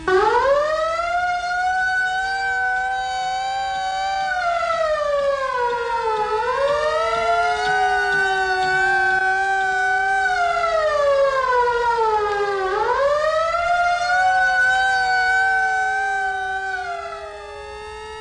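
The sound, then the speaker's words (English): A civil defense take-cover signal: a loud wailing siren tone that rises and falls in slow, sweeping cycles, sustained throughout with no voices. “The take cover signal is a wailing tone or a series of short blasts of 3 minutes duration.”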